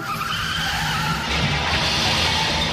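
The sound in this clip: Car tyres skid and squeal in a loud, continuous screech during a road accident. The broad hissing noise holds steady for the whole clip, with no clear separate impact.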